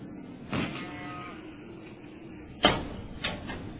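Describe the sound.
A house door being opened, with a soft scraping sweep, then a sharp latch click and a softer bump just after, with no voices heard.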